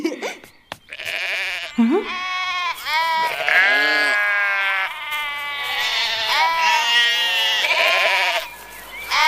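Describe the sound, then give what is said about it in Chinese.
Sheep bleating, including a newly arrived sheep about to be shorn: several loud, wavering, nasal bleats in close succession, one after another with little pause. “啊，这里多了一只新绵羊，我之前从来没有见过。”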